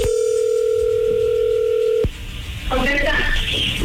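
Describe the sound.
A telephone dial tone is heard as a call is placed. The steady, unbroken tone holds for about two seconds and then cuts off abruptly, followed by a voice on the line.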